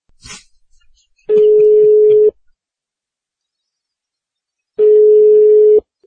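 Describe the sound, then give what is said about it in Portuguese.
A telephone ringback tone on a call placed to a listener: after a brief faint noise, two long, steady mid-pitched tones of about a second each sound, separated by a few seconds of silence. “Vamos ligar para alguns ouvintes.”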